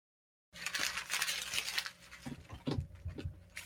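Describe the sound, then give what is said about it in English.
Paper crinkles as a letter is gently opened by hand without a letter opener. Irregular crackles and small tearing rustles follow a silent start, varying in loudness from moment to moment. “But it almost looks like a letter. I'm trying to open it as gently as I can without ripping it, but I really should get a letter opener.”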